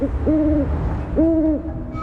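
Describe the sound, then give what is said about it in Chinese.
A female great grey owl on a branch makes begging calls for her mate: two drawn-out, low, slightly wavering hoots follow a clipped one at the start, over a soft rumble. “树枝上的雌鸟不断发出乞食的声音，为了它的爱人。”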